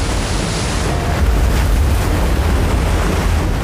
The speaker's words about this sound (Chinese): 实际上钱塘江每月都有潮水，只是规模没有中秋那么大。即使是平时的潮水，也会惊涛拍岸，声势浩大。